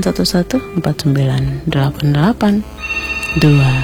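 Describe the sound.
A telephone rings on two incoming call lines at once, a steady tone under continuous talk from a voice.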